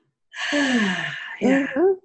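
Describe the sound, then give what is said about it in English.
A deep breath, heard on its own as a long breathy intake and release with a voiced, sigh-like tone that swells twice. “I'm like taking a deep breath.”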